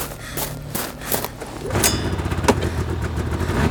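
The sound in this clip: A snowmobile engine runs with a mid-pitched motor drone, then revs up louder and rougher from about halfway, with a sharp burst among the steady throbbing.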